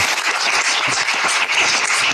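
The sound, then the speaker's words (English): Applause from an audience at a gathering, a dense and steady patter of many hands clapping without break at even loudness, with no voices rising above it. “Why the applause?”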